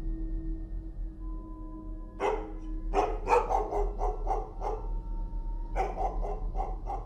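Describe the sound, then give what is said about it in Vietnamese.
A household dog barks outside in sharp, repeated bursts: a run of many barks, then after a brief pause another short volley. A steady low hum sits underneath throughout. “có tiếng động ở bên ngoài. Đó là tiếng con chó nhà nó đang cắn lên nhấm nha nhấm nhặng.”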